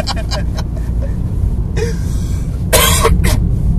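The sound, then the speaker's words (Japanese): Coughing fit from choking on a dry throat: a few harsh, breathy bursts over a steady low rumble, with the loudest coughs close together near the end. “めっちゃむせちゃったね、 むせちゃった、乾燥しちゃってね”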